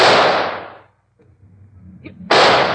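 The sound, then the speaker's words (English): Gunshots fired at an animal escaped from its cage: a loud, sharp blast decays into near silence, then a second abrupt, harsh burst cuts in at the end. “Stand back, Watson. I'm going to shoot.”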